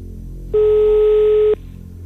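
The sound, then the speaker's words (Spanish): A steady telephone dial tone sounds for about a second: one even, mid-pitched hum that starts and stops abruptly over a faint low background rumble. “vamos a marcar, compañeros, por favor, el número de teléfono. Da tono, buena señal.”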